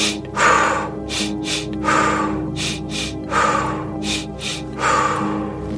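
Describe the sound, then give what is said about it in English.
A breathing exercise for meditation: pairs of short, sharp sniffs in through the nose, each followed by a longer, breathy exhale through the mouth. The pattern repeats three times in an even rhythm after an opening exhale. “it's going to be two short breaths in through the nose and then an exhale out the mouth. And it will sound like”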